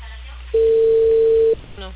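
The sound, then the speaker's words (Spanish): Ringback tone of an outgoing telephone call heard through the phone line: one steady, loud, mid-pitched tone lasting about a second. “Estoy llamándole y no me contesta. Tampoco la señora. Ya estoy timbrando.”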